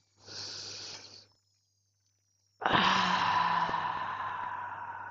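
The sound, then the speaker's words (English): One slow, deep human breath: a soft, airy inhale of about a second, a silent pause, then a longer hissing exhale that fades gradually. No talking. “let's close our eyes and take three deep breaths.”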